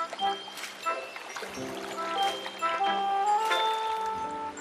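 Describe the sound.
Water poured for washing hands and face trickles and splashes steadily, with bright tinkling, ringing tones layered over the flow.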